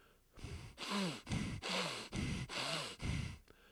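Deep sniffing inhales as someone puts their nose into flower petals: a faint, breathy series of rhythmic draws of air, with no talking.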